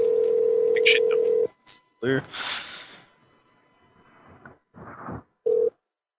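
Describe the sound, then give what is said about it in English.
A telephone dial tone plays steadily for about a second and a half as a call is placed. Brief beeps, breathy noise and talk follow, and a short tone burst returns near the end. “Dialing. She's probably been dreading this phone call all day.”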